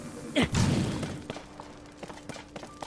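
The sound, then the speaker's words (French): A fire fruit is thrown and bursts in Zelda: Tears of the Kingdom, giving one short soft whooshing thump near the start, followed by faint scattered ticks of game sound. “on va jeter un fruit du feu ici.”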